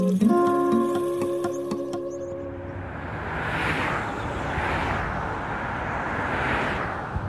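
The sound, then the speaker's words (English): Freeway traffic roars along an urban highway, the Loop 202 stretch in Tempe, Arizona, carrying some 100,000 vehicles a day. A broad, continuous rush of tyres and engines swells with a few passing vehicles, with no talk. “Every day, some 100,000 vehicles drive this stretch of the Red Mountain Loop 202 in Tempe.”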